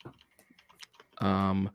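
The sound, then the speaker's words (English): Typing on a computer keyboard while searching Wikipedia: a short run of light, scattered key clicks, followed by a brief, loud voiced sound. “I type in Dead or Alive in Wikipedia.”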